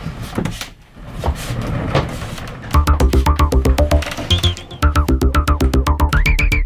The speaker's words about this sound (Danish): Og så hiver vi simpelthen hele skabet. Hjulene skal lige dreje rundt med mig.